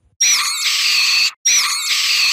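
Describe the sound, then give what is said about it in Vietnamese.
Two piercing, horrifying screams from an audio drama, each harsh and shrill, lasting about a second, loud and separated by a brief silence. “Trung hoảng hồn lùi lại phía sau, tiếng kêu ghê rợn, sắc lẹm như xé cả màn đêm.”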